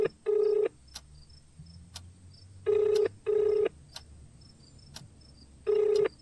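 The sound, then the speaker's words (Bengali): A mobile phone call rings unanswered: steady, mid-pitched ringback tone bursts, some in close pairs, separated by silent gaps and sounding alone without voices. “Full ring হয়ে গিয়ে কেটে গেল ফোনটা।”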